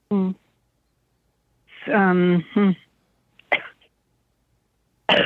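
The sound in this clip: A sharp, short cough breaks in after a few brief spoken phrases, standing out as a harsh burst against an otherwise quiet background.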